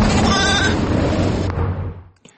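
Sacrificial sheep bleat beside a highway during Eid al-Adha, a wavering bleat riding over a loud, steady rush of passing traffic that gradually fades out.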